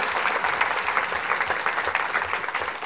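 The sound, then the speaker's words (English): A church audience applauds its worship team with dense, continuous clapping that stays fairly loud and even throughout, with no talk over it. “can you applaud your worship team?”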